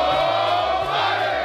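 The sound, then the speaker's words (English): Cincinnati Bengals players in their locker room chant 'hooray' together after beating the Pittsburgh Steelers on Monday Night Football, a loud burst of many male voices shouting in unison. “Zach Taylor in the locker room. Giovanni Bernard leading the boys in the Hooday chant.”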